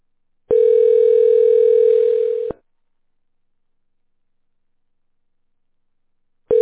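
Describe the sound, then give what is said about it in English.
A Google Voice phone prompt tone: one steady, single-pitched beep lasting about two seconds, followed by silence, then another tone starting right at the end. “state your name after the tone, and Google Voice will try to connect you.”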